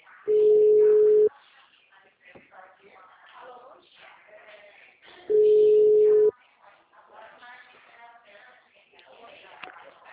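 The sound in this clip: Ringback tone of an outgoing telephone call: two long, steady, low-pitched beeps about four seconds apart, with indistinct talk and faint line noise in the gaps between them.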